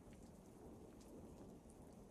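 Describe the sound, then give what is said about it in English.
A thunderstorm with rain: faint, steady rainfall hissing evenly throughout, with a low rumbling underneath and no clear breaks. “I get really scared of thunder, and I didn't want to be all alone while it's going on.”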